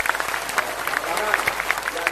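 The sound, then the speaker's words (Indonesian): An audience applauds Tommy Soeharto at a gathering, producing a dense, steady patter of clapping with voices faintly mixed underneath. “tepuk tangan untuk Mas Tommy”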